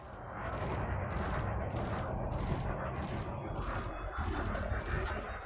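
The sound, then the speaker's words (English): Rapid autocannon fire in a space combat video game: a long, steady string of many rhythmic shots over a dense, rumbling bed of noise, loud and unbroken. “Get his shields down before we start firing the autocannon.”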